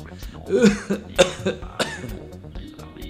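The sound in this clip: Feigned cough from a person, a few short, sharp coughing bursts mixed with throaty vocal sounds, moderately loud.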